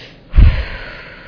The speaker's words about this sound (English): I've even learned to breathe, y'all. Look.